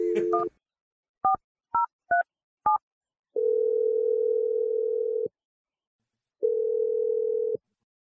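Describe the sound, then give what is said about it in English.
Touch-tone telephone dialing: a first beep, then a quick run of four short key tones, followed by two long, steady ringback tones separated by a pause. No voices are heard. “Let's dial this number and see what she has to say.”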